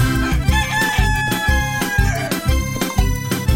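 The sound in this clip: A rooster crows over a rhythmic backing of steady low beats, in a children's song about a rooster and a hen.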